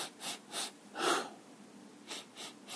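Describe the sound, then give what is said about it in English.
A person imitates a shallow, irregular sobbing breath: six short, uneven, airy inhalations with uneven gaps, the third one longest and loudest, and no talking. “It's very shallow, it's very upper lobe focused, and it's more like a sobbing breath, a bit irregular.”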